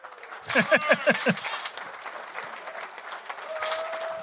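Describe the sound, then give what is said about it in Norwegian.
Audience applause greets a guest arriving on a talk show. Loud, dense clapping bursts out at once, then quickly dies away after about a second and a half, leaving faint crowd murmur. “Stor applaus til Anette Dahl.”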